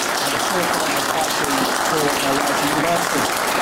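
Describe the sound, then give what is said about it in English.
Audience applause, a dense, steady clatter of many hands clapping without pause from start to end, with some voices mixed into the crowd noise. “But a big round of applause, please, for two people here”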